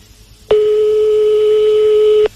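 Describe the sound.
Ringing tone of an outgoing phone call waiting to be picked up: one steady, loud, evenly pitched tone lasting nearly two seconds, starting and stopping cleanly over faint background noise.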